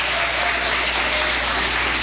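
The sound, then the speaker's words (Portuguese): Church audience clapping hands during worship, a dense, loud and steady wash of many hands that runs throughout without pause. “Quem tem essa paz pode bater mais palmas, dar glória a Deus.”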